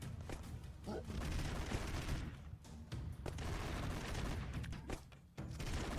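Homing bullets fire from a red laser weapon in an action video game, a dense, continuous barrage of rapid shots with a few sharper cracks standing out, fairly faint overall.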